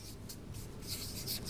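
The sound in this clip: Writing on a board with the left hand gives a faint, scratchy rubbing in a few short strokes, heard alone without voices.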